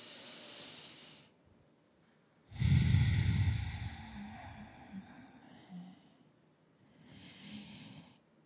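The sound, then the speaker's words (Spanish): Slow, deep breathing during a guided meditation: a few long, airy inhales and exhales, with one louder, rougher breath in the middle and softer breaths before and after. “vuelves otra vez a respirar profundamente”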